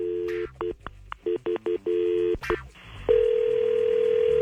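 Telephone dial tone while a call is placed. A brief steady tone gives way to a rapid run of short keypad dialing beeps. Then a louder continuous tone settles in and holds to the end.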